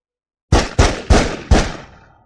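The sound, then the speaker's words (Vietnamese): Four gunshots fire in rapid succession from a rooftop. Each is a sharp, loud blast with a ringing decay, and the last tail fades out slowly. “Liên tiếp 4 tiếng súng.”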